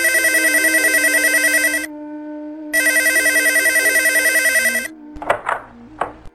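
A telephone rings as someone calls a doctor: two long, steady electronic ring bursts with a pause between, then a few short clicks as the line is picked up.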